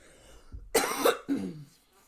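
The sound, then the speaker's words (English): Hacking coughs after water went down the wrong pipe: two harsh bursts, the second shorter with a lower, rasping tail, moderately quiet and without talk. “So please excuse me, I had the best hacking cough of wrong tube water ever.”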